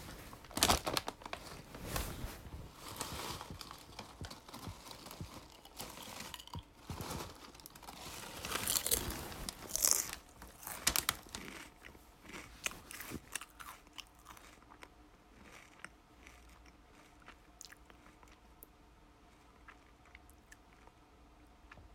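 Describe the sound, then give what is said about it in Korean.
Crunching and chewing of snacks: many irregular crisp bites and crackles, loudest and densest in the first half, then thinning to quieter, sparser munching toward the end, with no talk. “우선 과자 조금 먹을게요.”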